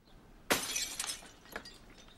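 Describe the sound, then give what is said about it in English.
A glass pane shatters as it is struck with a gun butt through a covering coat. One sharp crash is followed by a scattered tinkling of falling shards, fairly faint overall. “He tries the handle, then removes his coat and covers one of the panes of glass, then breaks it with the gun butt.”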